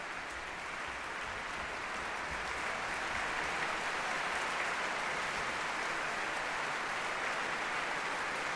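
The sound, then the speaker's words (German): Sustained applause from a concert hall audience for the NDR Elbphilharmonie Orchestra at the Elbphilharmonie: dense, even clapping that holds at a steady level throughout, with no voices above it. “Beifall in der Elbphilharmonie für das NDR Elbphilharmonie-Orchester unter Matthias Pinscher.”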